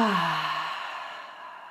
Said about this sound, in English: Take a deep breath in through the nose. Exhale out the mouth.